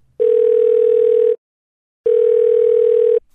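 A telephone line gives two long, steady electronic tones of equal pitch, separated by a short silence, as a call is placed again. Clean and loud, with no voices.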